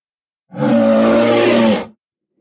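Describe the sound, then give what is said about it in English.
A Tyrannosaurus rex roar sound effect: one loud, sustained, growling roar lasting about a second and a half, with a rough low tone and harsh upper grit, heard alone. “Wow! Did you hear that? That's the sound of a Tyrannosaurus Rex, the most famous of all the dinosaurs.”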